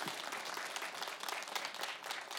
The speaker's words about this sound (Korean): 박수 한번 주세요.